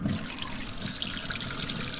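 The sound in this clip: Tap water running steadily as hands are washed before cooking, a constant splashing trickle.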